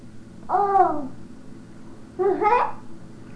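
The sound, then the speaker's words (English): A baby babbles in two short, high-pitched vocal bursts separated by a pause of about a second, fairly clear against quiet background. “You're doing a good job babbling, by the way.”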